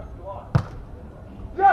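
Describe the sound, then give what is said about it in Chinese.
A single sharp, heavy smack of a volleyball struck in a powerful jump serve during a match, standing out once amid a low murmur, with voices talking just before and right after. “大力的跳发，好球，发球”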